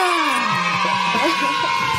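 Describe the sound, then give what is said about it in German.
Two people cheering after winning a game, with loud excited whoops and yells from high, strained voices that carry on without a break across the whole stretch. “Ah, die 2 jubeln gerade richtig.”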